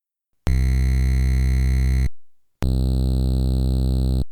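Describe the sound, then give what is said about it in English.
Two sustained envelope tones from AY and YM2149 sound chips play one after the other. The first is a grittier, harmonic-rich buzz held at a steady pitch. After a short silence, the second is a similar buzz with a cleaner, smoother timbre. “In each example, the first sound you hear is the AY chip with the dirtier sound, and then the second sound you hear is the YM with the cleaner sound.”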